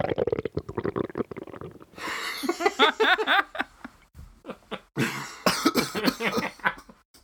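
Several rough coughs and throat-clearing bursts come in quick succession, after a stretch of voiced sound at the start, with brief chuckles between them.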